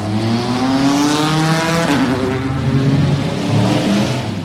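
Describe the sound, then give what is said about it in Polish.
Race cars roaring at the start of the 85th 24-hour race at Le Mans: many engines revving together in a loud, continuous, layered howl, their tones sliding and overlapping throughout. “Po raz 85 w historii samochody zawyły na starcie do 24-godzinnego wyścigu w Le Mans”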